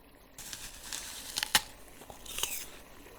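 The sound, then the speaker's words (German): Crisp bites into the green half of a fruit: a few sharp crunches, the loudest near the middle and another shortly after, with softer crackling chews around them and no voices. “Ich mache dir einen Vorschlag. Ich esse die grüne Hälfte und du bekommst die schöne rote Hälfte. Die schmeckt süß und saftig.”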